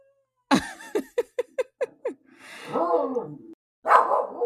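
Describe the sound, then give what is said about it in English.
A dog barks in a quick run of seven sharp barks, then lets out longer, wavering whine-like cries before one final loud bark. “Look, these dogs won't let us be great.”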